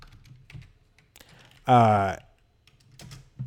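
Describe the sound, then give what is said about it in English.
Typing on a computer keyboard: faint, irregular clicks tapping along, with a short, loud voiced sound from a person breaking in midway. “I'm trying to type and talk at the same time.”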